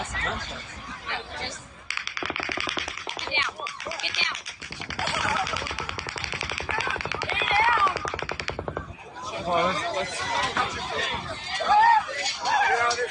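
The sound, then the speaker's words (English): Rapid automatic gunfire at a concert shooting: long bursts of fast, evenly spaced shots broken by pauses, with crowd voices and chatter beneath and more agitated voices after the firing stops. “Now, you'll notice a pause between the shooting. That is either him loading another clip or grabbing another weapon, I'm assuming.”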